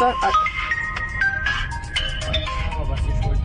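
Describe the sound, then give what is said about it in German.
A phone ringtone sounds as a freight company calls a truck driver, a loud melodic run of short stepping notes over a low rumble, with a voice speaking alongside. “Eigentlich ist heute das los, was immer los ist. Alex Spedition ruft an.”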